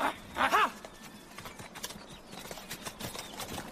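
Galloping horses of a hunt with hounds: fairly faint, continuous hoofbeats under steady background noise.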